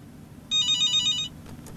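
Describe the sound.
A telephone rings once with an incoming call, a single bright, warbling electronic ring lasting just under a second over a low, steady background hum, with no voices.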